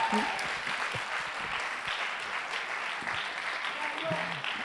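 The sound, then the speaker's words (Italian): Applause from a church audience during a Sunday service: steady, dense clapping that holds for the whole stretch, with voices mixed in underneath. “e qui ci sta pure un applauso”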